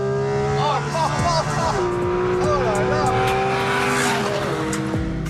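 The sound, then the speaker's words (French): Porsche GT3 Cup race car with a flat-six engine, driven on track: a loud, continuous engine note whose pitch glides up and down as the revs change. “La GT3 Cup est la déclinaison course, la fameuse GT3.”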